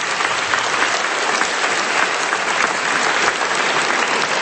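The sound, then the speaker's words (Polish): An audience at a gathering applauds to welcome a visiting priest. The clapping is dense, steady and loud and fills the whole stretch without a break. “Witamy ojca bardzo serdecznie, gromkimi brawami.”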